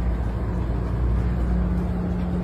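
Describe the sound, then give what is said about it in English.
A doggy daycare bus drives past with a steady low engine rumble that holds at an even level throughout. “This is a doggy daycare bus.”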